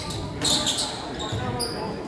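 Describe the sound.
Basketball dribbled on the court during a game, with steady bounces mixed into a continuous wash of crowd noise and indistinct chatter.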